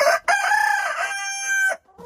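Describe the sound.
A rooster gives one long, loud crow. The ringing, slightly wavering call holds for about a second and a half and then cuts off, with no voices.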